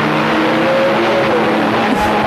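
Race car roaring around a track lined with concrete walls, its engine a loud, steady, unbroken drone with a gritty high-pitched edge held for the whole clip, no voices over it.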